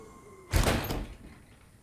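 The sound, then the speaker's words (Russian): A front door swinging shut in the wind ends in a single dull thud that slowly fades away, with only faint background noise before it. “Ветер медленно закрывает входную дверь.”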